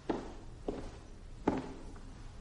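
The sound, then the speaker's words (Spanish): Soft footsteps of a man walking: four separate, muffled steps at a slow, slightly uneven pace, heard alone and fairly faint. “Lord Baelish camina hacia él”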